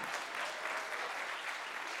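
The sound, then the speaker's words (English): Applause from a church audience during a morning service, a faint, even patter of many hands clapping continuously with no voices over it. “there you go, applaud, yeah.”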